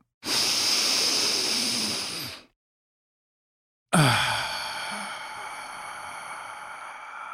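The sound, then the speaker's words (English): Two long, deep breaths drawn through the mouth, each a smooth airy hiss lasting a few seconds, separated by a brief silence; the second swells quickly and then slowly fades, with no voices. “let's take a deep breath”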